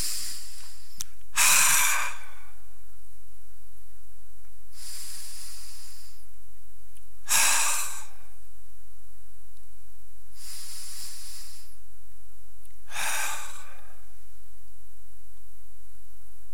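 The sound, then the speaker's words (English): Deep breaths in and out: five slow, airy breath sounds spaced several seconds apart, each rising clearly above a quiet, low background hum. “So close your eyes for just a moment. Let's do our Trinity of breaths. In.”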